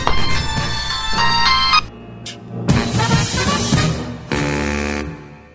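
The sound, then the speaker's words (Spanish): A mobile phone ringtone plays a loud, bright electronic melody of sustained tones in a few phrases, with brief gaps between them. “Ah, celular. Ah, suena.”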